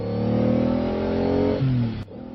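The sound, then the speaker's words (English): A car engine revs hard as the driver floors the accelerator on a lonely road through the Alleghenies. The loud, throaty drone holds a fairly steady pitch, dips briefly, then cuts off abruptly near the end. “I stepped on the gas like a shot.”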